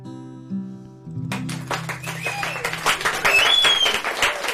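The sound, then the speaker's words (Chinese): Sparse, scattered applause from a small group follows the end of a guitar-and-vocal performance. A held musical tone fades into a few minutes' worth of loose, uneven claps, only seconds here, that stay fairly light and irregular. “稀稀拉拉的掌声啊！”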